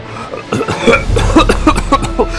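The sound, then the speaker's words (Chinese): An old soldier coughs for a long time, acted out by a voice as a fit of rough, throaty coughs. The coughs come in many quick, loud bursts. “那老兵进来咳嗽了半天”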